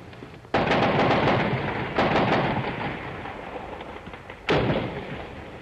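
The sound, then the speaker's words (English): Troops open fire on a peaceful rally in the Plaza of the Three Cultures, a heavy barrage with three sharp loud bursts, each followed by a sustained crackling roar of continuous gunfire. “The army is here and they're firing. They're letting go with just about everything they have.”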